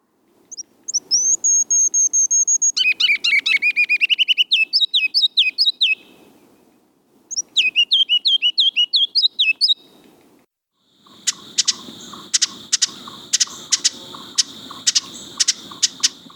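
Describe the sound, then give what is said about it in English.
Ruby-crowned kinglet songs and calls: high, rapid strings of thin notes in three bursts, the last a loose series of sharp, repeated calls. “Those were the songs and calls of ruby-crowned kinglet. These restless little olive-gray birds have a prominent white eye ring and two white wing bars.”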